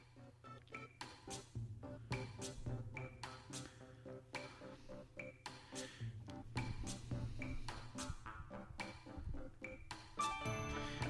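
A Skype call tone rings out in a repeating pattern of bright, bell-like chimes, steady and evenly paced throughout, with no voices over it.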